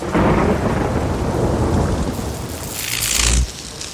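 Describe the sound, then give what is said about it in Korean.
Thunder rumbling through a heavy rainstorm, a loud, continuous low roar over steady hissing rain that swells toward the end before easing off. “천둥에 전기줄이 합선되어 불이 붙었다.”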